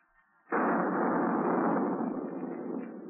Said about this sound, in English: How in tarnation did that gun go off by itself?